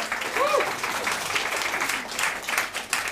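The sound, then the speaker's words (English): Audience applause at a live evening event as a guest is welcomed on stage, a steady, moderately loud patter of many hands clapping throughout. “Everyone put their hands together for Shelley, please.”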